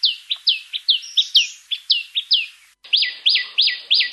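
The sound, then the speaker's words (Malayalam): Common tailorbird calls: many sharp, high, downward-sweeping chirps repeated in a quick steady rhythm. A brief pause breaks the series before a few more loud notes follow, with no other sound behind them. “ചുറ്റുപാടുകളിൽ അല്പമെങ്കിലും ശ്രദ്ധ വെക്കുന്ന ഒരു മലയാളി തീർച്ചയായും തുന്നാരന്റെ ശബ്ദം കേട്ടിരിക്കും. തുന്നാരന്റെ ഒന്നോ രണ്ടോ ശബ്ദങ്ങൾ അഥവാ കോളുകൾ നമുക്കൊന്ന് ശ്രദ്ധിക്കാം.”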